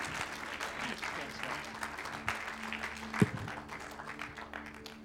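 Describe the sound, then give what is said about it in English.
An audience at a church gathering welcomes a speaker with steady, dense applause that fills the whole stretch, with voices mixed in underneath. “So why don't you put your hands together and give Derek Best a really great, warm Hope Center welcome as he comes up.”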